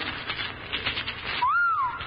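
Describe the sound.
Rocks pour out of a bag in a dense, rattling clatter of many small impacts, and a short, clear whistle tone rises and falls as the clatter ends.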